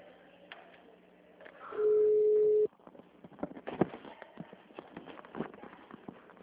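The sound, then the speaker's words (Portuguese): A telephone ringing tone sounds on a call to a bank branch line: a single steady, low-pitched tone lasting about a second, followed by scattered faint clicks and rustling. “tá chamando.”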